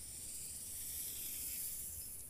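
A snake hisses in one steady, breathy stream that stays faint and even for about two seconds, with no break or other sound.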